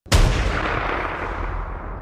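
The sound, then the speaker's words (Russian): A rifle with an optical scope fires in a snowy setting: one sharp, loud crack rolls into a long, rumbling decay, and the next shot's blast begins just as the segment ends. “Строгов и приник к оптическому прицелу на своей винтовке. Выстрел. За ним еще. И еще.”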